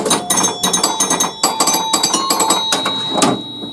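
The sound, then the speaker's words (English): Start-button chimes from a 1977 Stern Stingray pinball machine play a short tune: many quick, evenly paced bell strikes ring out loud and alone. “song via chimes when you press the start button? For those who know their games, maybe more than one, but the one I was thinking of was 1977 Stern Stingray. It sounds a bit like this.”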